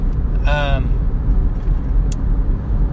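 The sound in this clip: Steady low road rumble and engine hum fill a car's interior on an evening drive home, a continuous dense drone with no distinct events.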